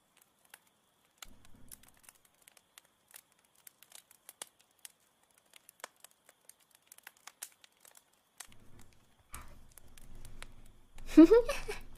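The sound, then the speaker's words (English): Writing on paper: a sparse, irregular run of small dry scratches and taps, faint throughout, followed by a louder rustle of paper handling near the end. “Hold on, one second. I'm gonna write something down.”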